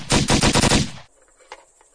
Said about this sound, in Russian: Звон гильз и хлопки выстрелов прекратились.